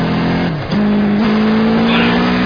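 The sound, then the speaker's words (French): A motorcycle engine, the 100-horsepower version of the bike, revs as the rider twists the throttle to accelerate from about 70 km/h, producing a loud, steady drone that briefly dips in pitch, then climbs and holds, with rushing noise beneath. “Voilà, il est vivant, le moteur est sympa. Hop, un petit coup de poignet, ça bouge tout de suite.”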